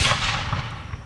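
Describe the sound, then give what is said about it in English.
A single Springfield rifle gunshot: a loud, sharp crack at the start that fades into a rumbling tail over about a second. “This is the sound of a Springfield rifle.”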